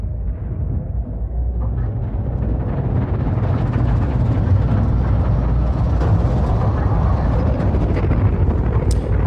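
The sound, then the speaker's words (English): Deep, roaring rumble from the sound design of the 10 Cloverfield Lane film trailer, dense and loud throughout, with a hissing upper layer that swells over the first few seconds and holds steady to the end. “That was a trailer for 10 Cloverfield Lane. Yes, the trailer did not tell you a lot about the story, and that's the best for yous to know. And I love the sound design in that trailer.”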